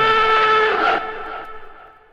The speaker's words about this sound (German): müssen wir natürlich einen, einen Jingle abfahren. Ähm, das ist der hier.